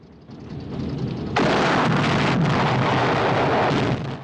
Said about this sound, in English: Soldiers run for their lives as explosions erupt all around the compound.